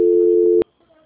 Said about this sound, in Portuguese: A ligação vai ficar muda, mas a senhora aguarde que em seguida alguém lhe atende, tá bom? Tá bom. Só um instante. Transferência.